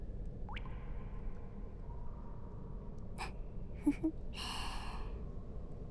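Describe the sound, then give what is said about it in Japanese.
A person yawns, with a few short breathy catches followed by a drawn-out, voiced, breathy exhale near the end, faint over a steady low hiss. “またあくびだ。”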